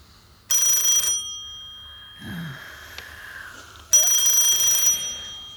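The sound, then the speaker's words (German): Telephone ringing in a home scene: two bright, electronic trilling ring bursts separated by a quiet pause with faint movement, the second burst longer than the first. “Telefon.”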